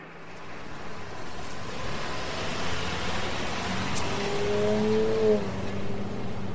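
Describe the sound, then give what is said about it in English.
A car is driven fast and takes a corner hard: a steady, loud engine and road roar that builds slightly, with a brief tire squeal near the end. “Oh, you needn't drive so fast, my man. We've got all night.”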